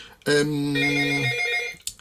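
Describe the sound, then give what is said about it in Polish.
A telephone rings with a single loud, sustained electronic tone lasting about a second and a half, its pitch stepping partway through before it cuts off. “to nie jest nasz redakcyjny telefon”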